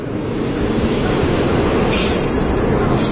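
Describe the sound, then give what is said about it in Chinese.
Loud, steady squealing of train wheels as a tourist special train departs, the high-pitched screech and rumbling rail noise continuing without a break for the whole stretch. “下午2:40，泾河号旅游专列准时发车。”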